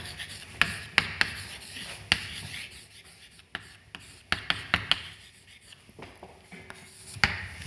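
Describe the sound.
Writing on a board during a physics lecture: faint scratchy strokes broken by many sharp taps at an irregular rhythm, with no talk over it.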